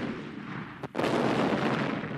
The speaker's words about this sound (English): Then a cannonball exploded near us, and we ran away in different directions.